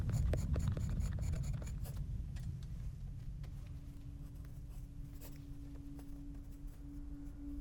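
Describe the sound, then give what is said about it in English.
Pen drawing on paper, adding short strokes to a long curved line and then shading an area of a sketch of a gnarled tree: continuous soft scratching with a few sharper ticks, faint and steady, with no talking. “He adds a series of short lines to a long, curved one, then shades another area.”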